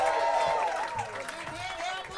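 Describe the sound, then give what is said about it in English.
An audience at a comedy show in Melbourne cheers and whoops to welcome an act on stage, with scattered clapping mixed into a steady, lively crowd roar whose rising and falling shouts carry throughout. “Let's get some cheering and whooping and screaming. Here we go.”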